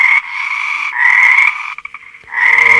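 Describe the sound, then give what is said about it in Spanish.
Frog croaking: long, loud, buzzing trilled calls in three drawn-out bursts separated by short pauses, steady in pitch, with no voices. “Y la cuarta rana llegó y dijo:”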